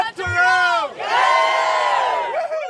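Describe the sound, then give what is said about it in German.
A crowd of charity runners at the finish on St. Peter's Square shouts the run's motto together in loud, sustained voices. Two long shouted phrases are separated by a short break, and the pitch rises and falls with the chant. “Blut, Schweiß und Tränen sind aber vergessen, als am Ziel auf dem Petersplatz alle das Motto des Spendenlaufs rufen.”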